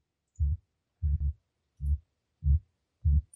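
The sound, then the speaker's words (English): Ambient machinery sound effect with five low, muffled thumps at an even, slow pulse like a strange heartbeat. The second thump is doubled, and there is no talking. “Yeah, it's the sound of the machinery around you.”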